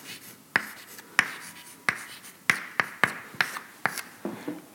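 Hand-writing an equation during a French lecture on actin flux and polymerization: many crisp, sharp taps and short strokes land at irregular intervals, fairly faint, with no talk.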